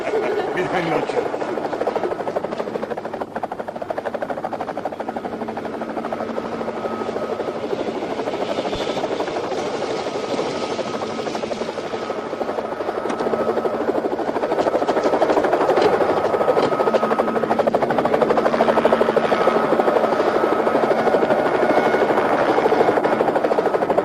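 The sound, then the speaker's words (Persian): A helicopter drones steadily for about twenty-four seconds with a continuous buzzing rotor throb that grows slightly louder in the second half, with voices talking over it at times. “من باید حساب هلیکوپتر بولتو برسم.”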